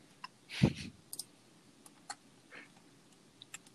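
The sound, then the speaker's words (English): A computer keyboard is being typed on, giving sparse, faint, irregular clicks with one slightly fuller clatter near the start, set against a quiet room hiss. “I'm just writing down letters on my computer so I know he's predicting what.”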